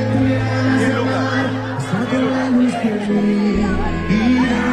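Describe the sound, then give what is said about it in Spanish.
An audience at a live show cheers and shouts. Crowd noise and scattered yells rise and fall over a busy, continuous backdrop with voices mixed in. “Además, escucha el público.”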